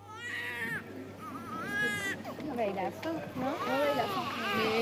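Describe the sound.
A child cries and whimpers in rising and falling wails, with people talking over and between the sobs.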